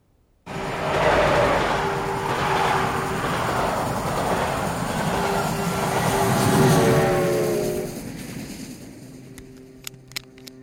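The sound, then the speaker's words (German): A train rumbles steadily on its run from Groningen toward Amsterdam, a dense, loud roar with a faint tonal hum that eases and thins near the end, where a few light clicks sound. “Heute Donnerstag, den 22. Dezember 1938, mit dem 16:07-Zug von Groningen abgefahren.”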